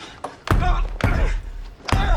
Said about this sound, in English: Kyle reaches the open cockpit door. She locks it.